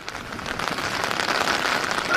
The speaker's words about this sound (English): Well, you seem to be fighting the rain there.